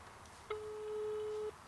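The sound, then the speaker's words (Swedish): Phone call ringing over a speakerphone, a single faint, steady beep lasting about a second against quiet background hiss. “Jag bara tänkte säga att jag tänkte ringa Ante här kort sekund.”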